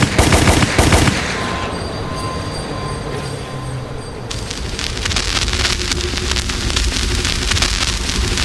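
Gunfire sound effects in a comedy skit: a few sharp, loud bursts in the opening second, followed by dense, continuous crackling and rattling noise that holds steady to the end.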